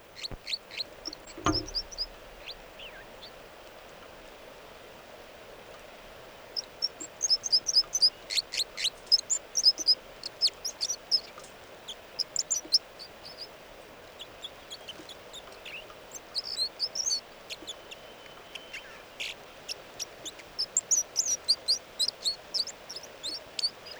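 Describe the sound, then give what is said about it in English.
Bird song from a single bird, heard as many short, high, thin chirps and twittering notes in irregular bursts over a steady background hiss. “And these are the vocalizations of song of bird 305.”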